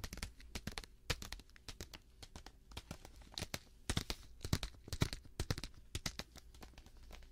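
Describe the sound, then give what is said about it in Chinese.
Crinkling and tearing of a cola-flavoured popping candy packet being opened: many sharp, dry crackles and rustles in irregular clusters, fairly faint, with no voices. “刚刚去把这个包装拆开了，跳跳糖的包装，然后吃它了”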